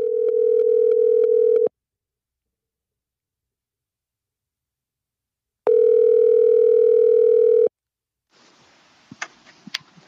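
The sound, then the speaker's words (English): Telephone line tones as a call is dialed: a stuttering pulsed tone, a stretch of silence, then one long steady ring tone, followed by faint line noise and a few sharp clicks. “So let's see if we can get him on the horn here really quick. As we hit the dial button, we'll turn up the volume here.”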